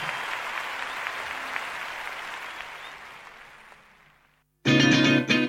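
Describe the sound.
Audience applause after a performance by the Filarmónica de Mendoza orchestra: dense clapping that gradually fades away into silence, followed by a short, loud burst of a different, tonal sound.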